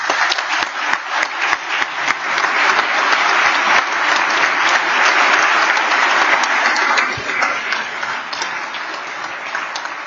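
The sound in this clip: Legislators applaud the pages in a legislative chamber: a dense, steady round of clapping from many hands that holds for about ten seconds and eases slightly toward the end.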